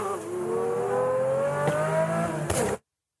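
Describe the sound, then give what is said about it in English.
A car engine revs hard with a steady, slowly rising whine, then gives a couple of sharp backfire pops near the end before the sound cuts off abruptly. “I can hear the amazing backfires.”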